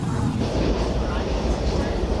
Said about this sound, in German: Die U-Bahn in Washington, D.C.